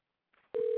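Telephone tone while placing a phone call: a faint rustle, then a loud, steady mid-pitched tone that starts abruptly and holds to the end.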